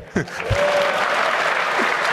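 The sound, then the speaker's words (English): Canned applause sound effect set off by a spoken word: a sudden wash of many hands clapping that starts abruptly and carries on steadily for about two seconds. “Each time I say shit, something is clapping. This is cool.”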